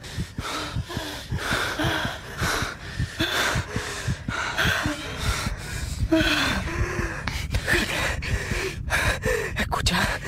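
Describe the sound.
Heavy panting from people who have run hard and thrown themselves onto the floor of an old abandoned tannery shed to catch their breath. Many rapid, breathy gasps and snorting inhales follow in a steady, ragged rhythm, alone without speech.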